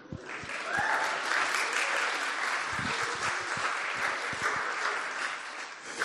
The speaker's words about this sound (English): I'd like you to give a warm Leeds Vineyard welcome to my Greek tutor.